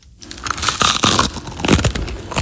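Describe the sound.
Crunchy chewing of a breakfast food: a steady run of crisp, crackling bites and crunches fills the whole stretch, fairly loud and heard alone.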